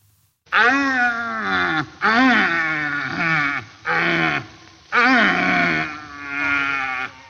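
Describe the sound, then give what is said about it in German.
A red deer stag roars during the rutting season, giving a series of long, deep, groaning bellows with rich harmonics, separated by short pauses. “Nein, es ist nicht dein Nachbar, das ist ein Rothirsch. Die haben nämlich gerade Paarungszeit und das ist wirklich so. Also die brüllen sich tagelang die Lunge aus dem Leib”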